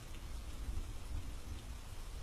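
Steady, fairly faint rain falls during a thunderstorm on a windy night, with a continuous low rumble beneath the hiss and no voices.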